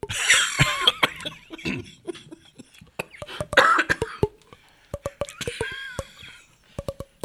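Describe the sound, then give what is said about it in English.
Throat bongos, rhythmic percussion made with the throat: many sharp, hollow clicks and pops in an uneven beat, mixed with a few brief breathy and voiced bursts. “And that was not sound effects. That's right. That's actually throat bongos”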